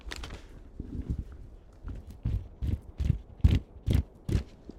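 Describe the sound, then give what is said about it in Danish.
Footsteps walking over to an inscription: a quiet series of soft, low thuds in an uneven rhythm, some with a light gritty scrape, growing slightly firmer toward the end. “Lad os lige prøve at gå hen til dem og røre ved skriften.”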